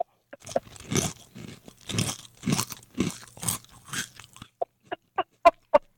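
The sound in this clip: Someone chews a mouthful of crunchy breakfast cereal, making muffled, rhythmic crunching and mouth sounds that end in five sharp, crisp crunches close together.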